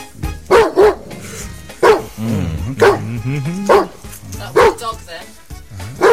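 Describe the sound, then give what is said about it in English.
A recorded dog barking is played as a sound effect in a guessing game. Several sharp, loud barks come at irregular intervals, with a wavering whine between some of them. “That was a dog, then.”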